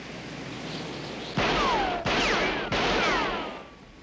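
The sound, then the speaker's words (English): Pistol shots fired at a sign on a farm: three sharp cracks spaced under a second apart, each followed by a lingering ringing tail. “The youngest boy covers his face as Clyde shoots the sign. Clyde hands the farmer his pistol. The farmer shoots up the sign.”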